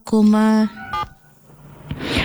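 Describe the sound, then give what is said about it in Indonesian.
Telephone dialing tones as someone places a call to a colleague: a long steady tone, then a shorter tone, followed by faint noise. “Ya, kami sedang mencoba untuk menghubungi teman kami”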